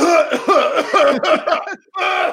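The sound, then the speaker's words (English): A person re-enacts coughing over a phone call, giving a rapid string of harsh, voiced coughs, then a brief gap and one more burst. “she immediately hung up on me because she was so freaked out that other people would hear me coughing over the phone”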